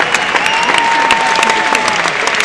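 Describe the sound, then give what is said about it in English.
A football crowd applauds a team off the pitch after a 2–0 win, producing a loud, dense, continuous wash of clapping that stays level throughout. “The team's now being applauded off.”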